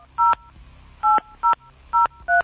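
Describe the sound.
Touch-tone telephone dialing: five short electronic beeps of differing pitch, spaced unevenly with pauses between them, sound clearly with no talking.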